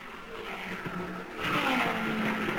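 Roaring race cars at an oval track, speeding through the second turn and onto the back stretch. A continuous engine drone swells noticeably louder halfway through, with a steady high whine running underneath.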